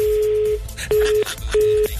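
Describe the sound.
Telephone busy tone on a diverted call: a steady low beep sounding three times in even on-off pulses over a low rumbling background.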